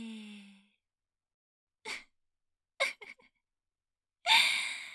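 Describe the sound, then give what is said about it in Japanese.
Breathing in and out on instruction, a few short, airy, hissy breath sounds separated by silence, the last one longer and fuller. “はーい、吸って、吐いて、もう一度、吸って、吐いて”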